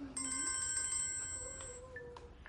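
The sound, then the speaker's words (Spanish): A mobile phone rings with an incoming call: a faint electronic ringtone of bright, melodic tones that shift in pitch, playing alone without talk. “Mark saca su móvil de un bolsillo. Mira la pantalla. Llamada entrante DS.”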